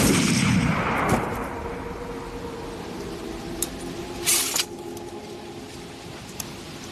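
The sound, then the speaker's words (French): Artillery guns firing on command: a heavy blast opens and slowly decays into a rumbling wash, followed by a few sharp, brief cracks spaced out over the next seconds. “à mon commandement, Anjou, feu !”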